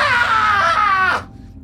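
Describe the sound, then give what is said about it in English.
A man's high, strained scream as his chest is sliced open, held loud and steady for about a second, then cut off sharply into near silence. “So I'm gonna slice it. You slice it. Yeah. This dude screams.”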